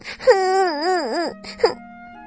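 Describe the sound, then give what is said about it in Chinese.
A voice imitates a young rabbit crying sadly: a drawn-out, wavering wail that bends up and down in pitch, followed by a shorter sob and a faint lingering tone. “他哭得很伤心。”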